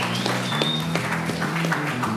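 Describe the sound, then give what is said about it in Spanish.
Audience applause for a guest in a Spanish-language comedy talk show, a fairly soft, steady patter of clapping with voices talking over it. “Un aplauso para Arturo Vilches. Un aplauso para los Vilches.”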